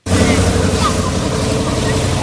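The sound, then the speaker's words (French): A car drives over impassable, rutted muddy roads in the Djambala district of Berberati during the rainy season, with a loud, steady engine rumble and broad noise that continue unbroken throughout. “Au volant de sa voiture, Albert affronte les voies impraticables qui traversent le quartier de Djambala.”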